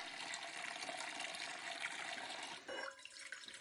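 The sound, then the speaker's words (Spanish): Water poured from a saucepan over an elderly woman's soapy hair at a bathroom sink: a steady rushing splash that runs on, then briefly shifts and thins near the end. “Llena un cazo con agua y la vierte sobre los cabellos enjabonados de la anciana.”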